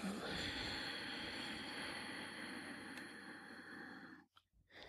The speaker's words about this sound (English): Inhale through the nose, contracting the back of the throat. And slowly let it out through your nose.